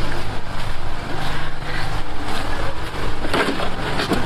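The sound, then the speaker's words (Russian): An electric power generator runs at a site with no water supply, giving a loud, steady engine drone with broad rumbling noise that holds constant throughout, with no distinct breaks. “Воды на сегодняшний день нет, это генератор, из-за этого есть электроэнергия.”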